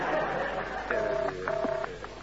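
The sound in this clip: A telephone ringing tone sounds on the line during a call to a London number. Two short, steady buzzing tones play in quick succession over a faint background hiss.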